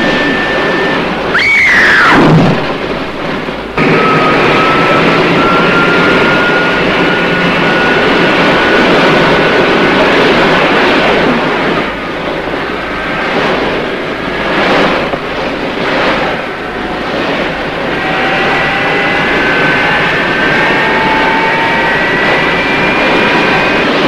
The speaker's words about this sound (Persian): آی اسکی موبیل ترموزم نداره.